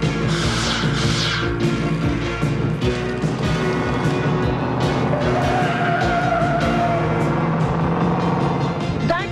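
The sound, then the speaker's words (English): Loud, sustained tyre skid as a car spins sideways across a road in front of cyclists. Dense screeching roar runs through the whole clip with engine noise underneath and a thin squealing tone partway through. “Dwayne and Moustache pass Judy, Goose and PJ in the car and suddenly spin the car parallel in front of them.”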